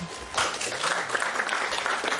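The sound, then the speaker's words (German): Audience applause at a political debate on public transport, breaking out after a brief quiet moment and continuing as steady, dense clapping to the end. “Hey, gibt's kurz zwischen Applaus? Für die Tram? Ich weiß nicht. Vielleicht für die Busfahrer.”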